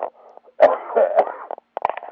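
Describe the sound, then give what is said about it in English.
Coughing and spluttering from a person in conversation, heard as a few irregular, throaty bursts with voiced, rasping tones, separated by brief silences and ending in a cluster of short choppy coughs. “Excuse me, I'm spluttering and coughing.”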